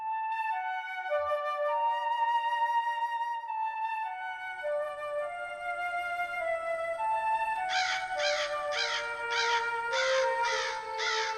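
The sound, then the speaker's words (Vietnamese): Crows caw outside in a yard at night under tamarind trees: a run of harsh, repeated caws near the end, sounding over sustained tonal notes that shift in pitch. “Tiếng quạ kêu ngoài sân ai oán, như trách than điều chi oan uổng, khiến cho Mạnh”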